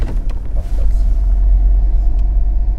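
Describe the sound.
A car is driving, heard as a loud, steady low engine and road rumble throughout, with faint brief noises on top and no talking.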